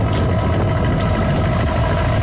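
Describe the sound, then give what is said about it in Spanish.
A boat engine rumbles steadily as the vessel leaves the port of Fisterra, a loud, continuous low drone with constant vibration and no voices. “Así soa o motor dun barco a sair do porto de Fisterra.”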